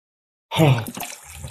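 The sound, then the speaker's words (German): Volvic mineral water pours into a shaker, starting after half a second of silence with a loud gushing splash and a brief gurgle, then settling into a softer, steady trickle. “So, jetzt machen wir mal ein bisschen Wasser hier rein.”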